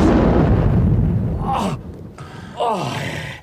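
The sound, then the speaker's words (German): A deep, rumbling explosion fills the opening second and a half and then fades, followed by two short, sharp vocal gasps. “Lauf zu den Bäumen rüber, falls noch mehr Explosionen kommen.”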